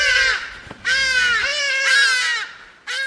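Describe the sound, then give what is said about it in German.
A hadeda ibis in Johannesburg calls loudly in harsh, nasal, drawn-out cries, a few raucous calls following one another with short gaps, alone with no voices. “Hagedasche sind oft in Schwärmen unterwegs und haben sich den ganzen Tag über viel zu sagen.”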